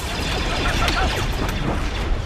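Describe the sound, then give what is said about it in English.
Tank-like walkers fire across swampy terrain at a tall rock pinnacle and monastery, sending many quick descending blaster zaps over a dense, continuous rumble of battle noise. “Massive tank-like Republic walkers stomp across the swampy terrain and fire on the tall rock pinnacle and the monastery.”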